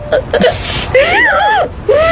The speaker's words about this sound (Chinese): 老婆，别哭了。